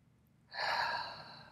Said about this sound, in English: Let's take a big breath together.